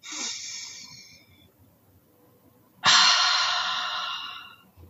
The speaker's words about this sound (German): mit einem ganz bewussten Atemzug. Wer will, kann mitmachen.